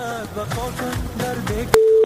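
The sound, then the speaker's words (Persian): A single steady telephone tone as a caller's line is connected. It is loud and plain and follows a stretch of music. “میریم اولین تماس را وصل میسازیم ببینیم که کی است، از کجا تماس گرفته.”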